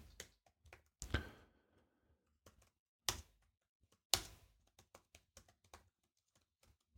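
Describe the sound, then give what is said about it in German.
Computer keyboard keys clicking while a configuration file is typed, faint and irregular, with a few sharper, louder clacks among sparse light taps. “at.service in diese Datei schreibe ich das folgende. Unit Description.”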